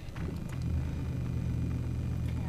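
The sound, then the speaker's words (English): A quiet automatic car switched on in a solar garage, about to drive off: a faint, low, steady rumble and hum that holds evenly throughout, with no voices. “All right, the car's on. Silent. Okay, well, let's take it out of here and see what it does.”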